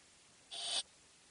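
A computer alert sound marks the end of a download: a single brief, bright, hissy tone of about a third of a second, standing alone over quiet background hiss.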